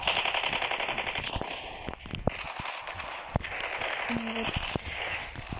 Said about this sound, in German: Okay, ich muss die blöde Waffe nachladen. Okay, ich kann wieder schießen.